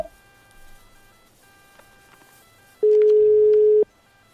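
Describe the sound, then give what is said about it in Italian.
A telephone line gives a single steady ringing tone lasting about a second. The tone is mid-pitched and sounds alone after near silence. “Il telefono sta squillando e risponderà lei.”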